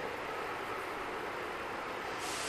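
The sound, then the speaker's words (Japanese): An express train pulling out from a station platform: a steady, dense rumble and hiss that holds at an even level throughout, with no voices. “なんでこう目の前で電車が行くと悔しいんでしょうね。今目の前で特急がまさに出ていって”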